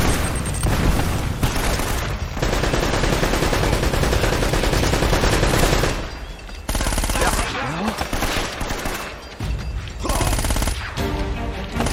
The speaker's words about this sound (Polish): Czekajcie, granat. Coś ty zrobił.